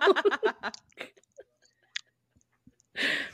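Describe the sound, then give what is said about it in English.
Chewing on Starburst candy, with a few quick moist bites and smacks at first, then scattered faint mouth noises and a louder burst of chewing at the end. No one speaks. “You're worth more than that whole bag of Starburst you're eating right now.”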